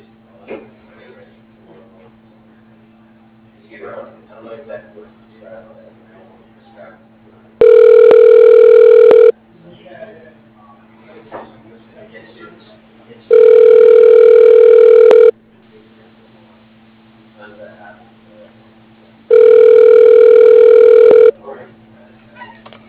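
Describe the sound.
Telephone ringback tone while a call is transferred: three evenly spaced, steady buzzing rings, each about a second and a half long, separated by longer gaps with faint low background sound.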